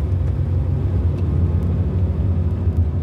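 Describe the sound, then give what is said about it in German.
A small car driving from Caen toward the coast: a steady low engine and road rumble drones throughout, even and continuous with no clear changes. “Jetzt sitzt er konzentriert am Steuer des Kleinwagens und fährt von Caen an die Küste.”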